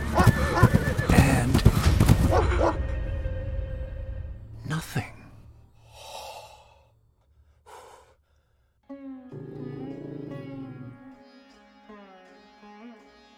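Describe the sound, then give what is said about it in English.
Horse hooves pound loudly at first and then die away, followed by a few neighs and breathy snorts. “The pounding hooves came closer and closer until they broke into the revealing light of the moon.”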